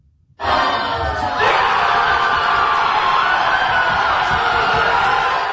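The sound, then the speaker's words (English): Basketball fans roar and cheer in celebration after their team's comeback playoff win in a New York arena. The crowd noise breaks out suddenly from near silence and then holds as a loud, dense, steady roar of many voices to the end. “Fans danced, cheered, and sang in celebration”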